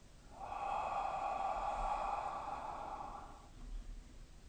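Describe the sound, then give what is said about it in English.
A single long, deep breath in, taken on a slow count, heard as a steady airy rush with a faint tonal edge that holds for about three seconds before fading. “we will take a deep breath in one. Two.”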